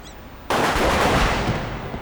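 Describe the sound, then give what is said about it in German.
Gunshots echoing in a parking garage: a sudden, very loud blast breaks a quiet moment and swells into a dense, sustained, roaring wash of gunfire that slowly thins. “Die Schüsse halten ohrenbetäubend in dem Parkhaus.”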